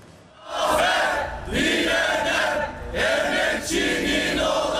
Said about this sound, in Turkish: Dört aylık grev bitti, okul önünde kutlama yapıldı.